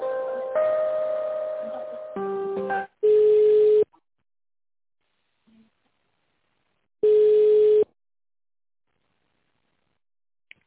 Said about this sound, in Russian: давайте я вас с главным инженером соединю